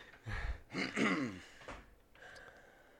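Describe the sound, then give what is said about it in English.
A person clears their throat in a few harsh, raspy bursts, fairly quiet overall, and a softer breathy noise trails after them. “Why'd you make that face when you cleared your throat? I don't know. I can't get my throat cleared.”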